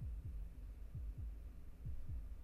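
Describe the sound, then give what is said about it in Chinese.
A heartbeat sounds as three low double thumps at a steady, even pace over a faint hum. “心跳也加快了。”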